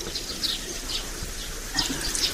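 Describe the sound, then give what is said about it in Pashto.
Warm water is poured over hands being washed with soap, a faint, steady splashing trickle that grows briefly louder near the end. “راځه لاسونه دې ومینځه زه به وریجې راوړم ښه راواچوه اوبه نیسه لاسونه دا صابون هم در واخله زه به ګرمې اوبه در واچوم”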